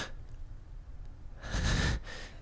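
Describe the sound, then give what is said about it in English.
A man inhales once, a short breathy intake of about half a second that rises clearly above a soft background hiss. “And he inhales.”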